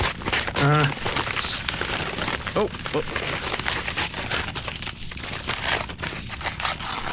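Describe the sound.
A Christmas gift box sealed with stubborn packing tape is opened. Continuous crinkling and rustling of cardboard and tape carry through, broken by a few sharper tearing rips.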